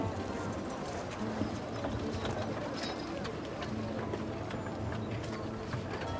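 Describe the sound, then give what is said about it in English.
Horse-drawn carriage hooves clip-clop over narrow streets in a steady, continuous run of many hoof strikes at an even level. “Then the king climbs into his carriage. Carriage does a 3-point turn in the very narrow streets and starts heading its way back up to the prince's citadel.”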